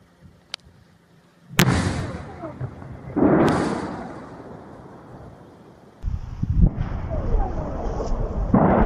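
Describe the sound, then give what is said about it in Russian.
Explosions at night, reportedly air defence fire: after one faint pop come three loud booming blasts, each trailing off in a long rumbling decay, with wind buffeting the microphone throughout. “Местные жители в соцсетях опубликовали видео с этими взрывами. Геолоцировать их невозможно, так как там просто слышны разрывы в полной темноте.”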